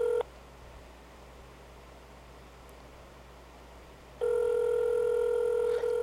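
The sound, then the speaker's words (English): Telephone tones on a phone line: a steady tone sounds briefly, then a stretch of quiet hiss, and a sustained tone returns for the final two seconds with a short blip near the end. “Let's call up the other number on this flyer. Keypad.”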